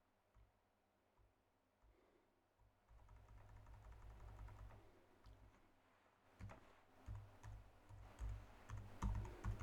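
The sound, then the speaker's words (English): Typing on a computer keyboard with only one hand free, as irregular clattering key clicks that grow busier and louder toward the end over a low, steady hum. “So it takes me a little longer to type the metadata because I got one handful.”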